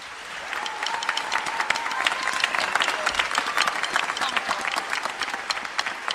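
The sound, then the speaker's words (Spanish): Audience applause at a carnival murga singing competition, a bright, dense clatter of many hands that holds steady for about six seconds, with a thin wavering tone threading through the clapping. “un aplauso, por favor”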